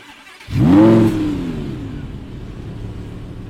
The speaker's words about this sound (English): Keep driving. Get us the hell out of here.